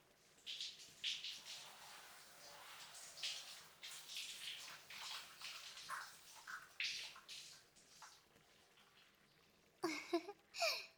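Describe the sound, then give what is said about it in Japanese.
Water splashing and trickling as someone's hair is washed, a steady wet rush in uneven surges that ends with a few sharper, louder splashes. “どうでしたか？人に頭を洗ってもらうって気持ちいいですよね。”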